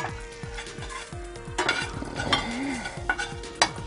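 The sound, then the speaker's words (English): Spices sizzling in hot avocado oil in a pan while being stirred: a steady frying hiss runs under many quick scraping and clinking stirring strokes, with a few louder knocks. “So now we're just going to throw in all our spices. We want those to open up a little bit and start to flavor our oil.”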